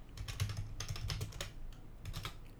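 Rapid typing on a computer keyboard: quiet, dense clusters of plastic key clicks with an uneven rhythm and no talk.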